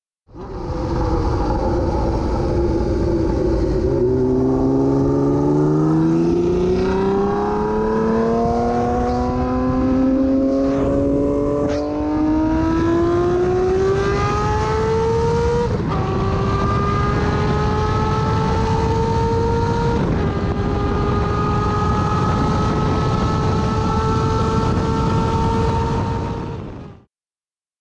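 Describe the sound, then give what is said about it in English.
A Honda CBX 1000 motorcycle with straight pipes revs hard, its loud, continuous engine note climbing steadily in pitch, then shifting abruptly a couple of times and holding a high, raw howl until it cuts off. “Honda's CBX 1000, here's a clip with straight pipes. This is straight out of Formula One sound.”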